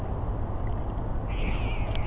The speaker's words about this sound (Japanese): おお、びっくりした。猫、猫、ニャーニャー言ってんじゃねえよ、ビビるじゃねえか。